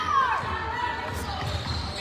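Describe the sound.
A basketball is dribbled down the court by a Dillingham player during a game. The bounces sound under continuous play-by-play commentary.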